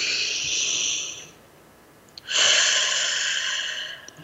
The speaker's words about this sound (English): Take a breath with us.